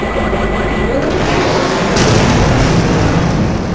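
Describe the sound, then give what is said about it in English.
Blaster fire and explosions in a space fighter dogfight: a loud, dense, continuous barrage of shots and blasts, with a heavier burst hitting around the middle and the roar carrying on to the end. “It locks on and fires. She performs evasive rolls. Several blasts miss. A couple hit.”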